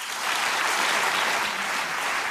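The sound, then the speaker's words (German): Sustained audience applause for a political candidate after his speech, a dense, even roar of many hands clapping at constant loudness throughout. “Nach der Rede minutenlanger Applaus für den Kandidaten.”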